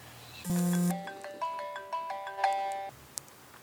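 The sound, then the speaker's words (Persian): A mobile phone ringtone plays a short melodic sequence of bright electronic tones. A few distinct notes sound over about two and a half seconds at a fairly quiet level, then stop. “ببخشید این دوست ما رو، ایشون زنگ زد، رشته افکار ما و سخن ما هم پاره پوره شد.”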